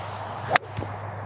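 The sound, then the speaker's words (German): A golf ball is struck with a 3-wood for the second shot on a par 5: a single sharp, bright metallic click, brief and clear against a low steady background. “Paar 5, zweiter Schlag, endlich mal mein Holz 3 wieder, war ja bislang nur wirklich an T1 am Abschlag, ist ja sonst wirklich so einer meiner Favoriten.”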